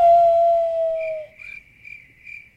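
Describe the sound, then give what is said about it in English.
A crickets-chirping sound effect played from a soundboard. A steady whistle-like tone fades out, then high, thin chirps repeat about four times at an even pace, fairly faint, with no voices. “crickets. Tumbleweeds. Crickets.”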